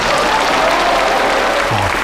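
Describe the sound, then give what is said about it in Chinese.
Audience applause welcoming a singer onto a stage: dense, steady clapping from a crowd that stays at an even, loud level throughout. “大家掌声欢迎。”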